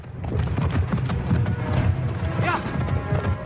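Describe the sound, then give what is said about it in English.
A ridden horse galloping off through trees, its hooves beating a fast, rhythmic clip-clop throughout, with a voice speaking over the hoofbeats. “Jim leaps onto Stanton's horse and gallops off through the trees.”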